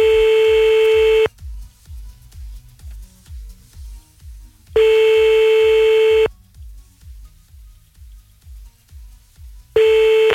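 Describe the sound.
A telephone ringing tone sounds on a call back: steady, single-pitch tones of about a second and a half, separated by long silences. There are three in all, the last cut short, and no voices.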